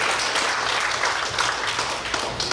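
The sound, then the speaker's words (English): Applause from a church audience welcoming a speaker to the second service, a loud, dense wash of clapping that stays steady throughout. “So give it up for Peter DeSantis. Stand on your feet. Welcome him.”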